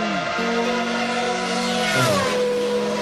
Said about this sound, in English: F1 race through San Francisco. Is it Formula One? Or is this Yeah. AI?